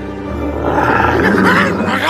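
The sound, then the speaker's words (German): Tigers pouncing let out a single deep, growling roar that swells in loudness over about two seconds. “Und die Tiger stürzen sich wie die Berserker darauf.”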